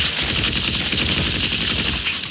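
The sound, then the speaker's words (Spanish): Rapid automatic gunfire fills a Vietnam War film battle scene, a dense, loud, unbroken rattle of overlapping shots that keeps its intensity throughout. “Lane y Chet comienzan a disparar también.”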